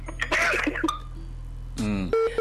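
A telephone is dialled, with a few short electronic keypad tones over a steady low hum and brief bursts of other sound mixed in between.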